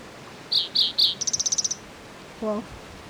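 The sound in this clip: A bird calls in high notes: three short chirps, then a fast trill of about eight notes, then one lower, rougher note.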